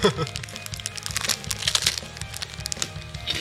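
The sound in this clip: Japanese rice crackers (senbei) crunch as they are eaten, with sharp, brittle cracks and crinkles arriving in irregular bursts; a voice is faintly present.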